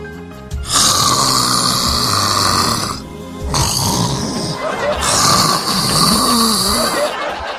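Loud, rough snoring from a person under hypnotic sleep comes in two long, drawn-out, growling breaths that sound almost like a beast's roar, with a brief dip between them.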